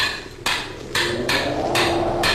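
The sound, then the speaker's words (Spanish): A hammer striking a stuck bolt: a few heavy blows at uneven intervals, each a harsh metallic hit that leaves a lingering, noisy ring over a constant background hiss. “Si este perno se resiste todavía, lo haré saltar de una vez de un martillazo.”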